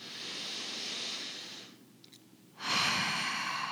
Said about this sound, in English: So let's do something here. I want you to take a deep breath in.